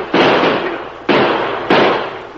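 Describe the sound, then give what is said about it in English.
Gunshots fired at a rider fleeing after a bank robbery: three sharp, loud blasts, each dropping into a fading noisy tail, with no voices. “Stop him. He must have robbed the bank. Sure, probably killed the banker, too. Shoot at him, boys.”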